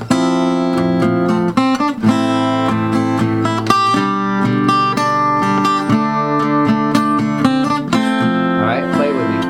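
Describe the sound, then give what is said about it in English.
Several guitars strum chords together in the key of C without a capo, a full, ringing sound with a steady rhythm and regular chord changes. “So take the capo off, and we're gonna all play together, not with the recording, but just with the key of C, all the way from the beginning, and I will show you what happens when we get to the chorus, okay? So it's gonna sound like this.”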